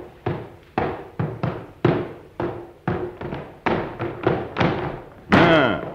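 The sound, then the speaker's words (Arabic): A chest being opened as a drama sound effect: many dull, evenly loud thuds in an uneven rhythm, then a louder final burst with a ringing, creaking tone. “والآن يا حسان. مولاي. افتح هذا الصندوق على بختك أيها الوزير.”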